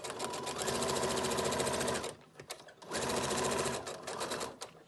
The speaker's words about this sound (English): she's kept busy with her brother's sewing machine.